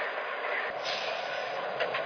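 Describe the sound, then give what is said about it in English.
Steady rumbling and rolling noise of a passenger train arriving at a station, continuous and fairly even at a moderate level throughout, with no voices. “Chicago on track 1, train number 217, the Peninsula.”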